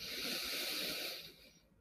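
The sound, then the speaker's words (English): A deep breath is drawn in through the nose, a steady, airy hiss that holds for over a second and then tapers off quietly. “Take another deep breath in through your nose.”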